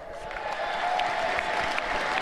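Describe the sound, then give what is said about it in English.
Crowd applause at a political speech after a new government department is announced: sustained, even clapping that swells slightly in loudness, with a faint steady tone beneath. “Why are you clapping?”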